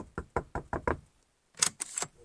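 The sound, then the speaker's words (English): Knocking on an office door inside a stadium: a quick, even run of five knocks, a short pause, then a few sharper knocks. No voices are heard. “Let me just give the Chief Executive Officer's Paul Lakin's door a knock, see if he's in.”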